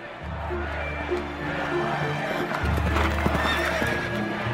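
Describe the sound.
Horses from an old imperial stud gallop with steady clip-clopping hooves while loud whinnies rise above, over a low sustained drone.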